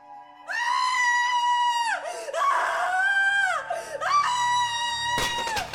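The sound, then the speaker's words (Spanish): A voice screams in alarm and anguish: three long, wavering, high-pitched cries with brief dips between them. “Entonces dio un grito de alarma y de angustia.”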